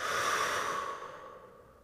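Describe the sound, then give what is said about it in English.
A slow, deep breath during a guided relaxation exercise: a soft, airy rush that holds steady for about a second, then gradually fades, with no talking over it. “let's take in a big deep breath. And out.”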